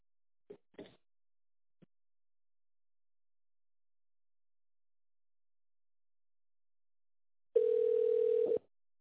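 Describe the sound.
A telephone ringback tone sounds once as a call is connected: a single steady mid-pitched tone lasting about a second, after near silence broken by a few faint clicks.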